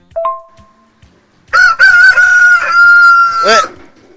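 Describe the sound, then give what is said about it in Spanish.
A rooster crows loudly in one long, sustained cock-a-doodle-doo among a flock of hens and roosters, with a brief faint sound beforehand and quiet gaps around it. “Nos invaden las gallinas y los gallos. Bueno, ahí lo está el gallito cantando para vos, Joaquín.”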